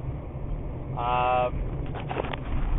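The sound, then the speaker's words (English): Steady low road rumble from inside a moving car on the drive home, a continuous droning hum under a brief stretch of talking. “I'm in my car right now, driving home on a long, long day.”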